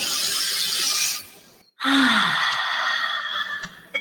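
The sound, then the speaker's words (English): A deep inhale taken during a guided breathing exercise: a steady, airy rush of breath lasting a couple of seconds, following an earlier stretch of breath noise and a brief pause, with no talking. “Start just below the belly button. Inhale.”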